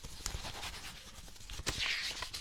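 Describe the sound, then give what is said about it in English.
A pen scratches across paper while signing a delivery receipt for flowers: faint, quick scratchy strokes with a few short bursts and pauses between them. “Sign here, please.”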